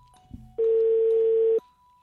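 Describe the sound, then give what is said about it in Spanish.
A telephone tone sounds while a number is dialed: a single loud, steady electronic beep holding one pitch for about a second, preceded by a faint short click. “Márcale al Benechito. Despiértenlo.”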